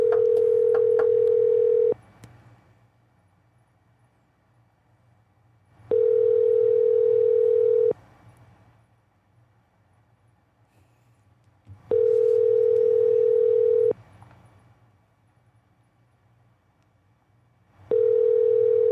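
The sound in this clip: A telephone rings out while calling someone, a steady two-tone ringing signal in four evenly spaced bursts of about two seconds each with four-second silences between. The last burst is cut off, and a faint low hum sits underneath.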